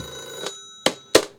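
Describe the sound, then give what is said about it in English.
A telephone rings indoors: a steady, bright electronic ringing tone that runs throughout, with a few short, sharper bursts standing out over it. “Wait, do we actually have a phone? That's odd. Wait, what's going on here? Let me just. Emma, pick it up. Emma, look for the phone. Pick it up.”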